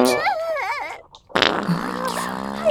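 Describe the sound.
Fart sounds: a squeaky, wavering one that bends up and down in pitch, then, after a brief pause, a longer, louder, buzzing one that runs to the end.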